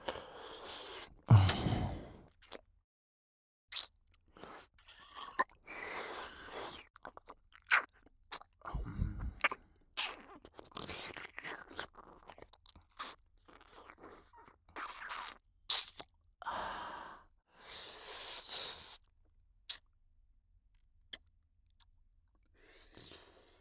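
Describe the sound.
Crunchy chewing of tender food with a pleasing bite: many irregular crisp crunches and bites run through the whole stretch, loud and dense at first, then sparser and fainter toward the end.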